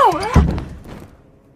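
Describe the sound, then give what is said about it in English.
A wedged door being forced open gives a single dull thud just after a brief voice, then the sound fades out quickly. “Oh, the door's wedged. Oh, it must be all that crunching down.”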